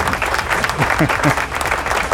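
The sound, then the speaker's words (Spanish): A recorded applause sound effect: a dense, steady wash of clapping that runs through the whole clip, with a brief voice-like sound rising over it near the middle. “Aplauso. ¿Dónde están los aplausos, lechón atómico? Ay, bendito sea el Señor. Zumba los aplausos ahí, ya está.”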